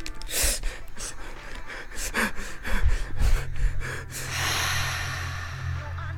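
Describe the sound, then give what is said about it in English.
Slow, deep breathing to calm down: long, noisy inhales and exhales of air, steady and fairly loud, under a faint low hum. “I need you to center yourself. Let's breathe.”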